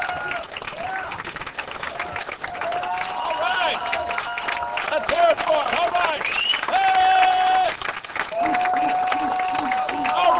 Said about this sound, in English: All right, let's give them a big round of applause.